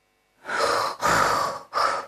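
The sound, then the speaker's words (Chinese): A voice imitates the loud snoring of a drunk man asleep: three long, rasping, breathy snores, the first two drawn out and the last cut shorter, heard alone. “哎呀，有呼噜声的，睡着了。老王爷在那里鼾声如雷了，因为酒喝太多了”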